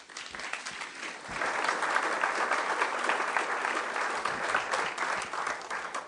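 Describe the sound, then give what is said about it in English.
An audience bursts into warm applause welcoming a chef and a moderator at an evening program, swelling quickly to a dense, steady clatter of many hands that carries on for several seconds. “So please help me give them a warm welcome.”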